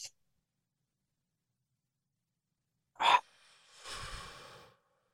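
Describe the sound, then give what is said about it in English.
A deep breath drawn in from the belly during a guided breathing exercise: a short, sharp intake, then a softer, longer airy breath, heard alone after silence. “Take just big three breaths in from your belly all the way up. And just let go. Help clear your mind a little bit. One more big breath in.”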